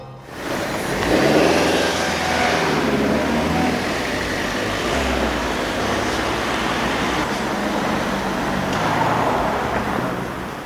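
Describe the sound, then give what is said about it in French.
Road traffic rumbles in a suburb beyond the city ring road. Cars and other motor vehicles pass in a continuous, fairly loud roar with no breaks or pauses. “à l'oreille, on pourrait être à peu près n'importe où, c'est le bruit de circulation. On est de l'autre côté du périphérique, c'est la banlieue.”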